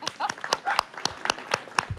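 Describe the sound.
Applause from a concert audience, sparse hand claps landing in a loose, uneven rhythm, sharp and fairly quiet, with no voices.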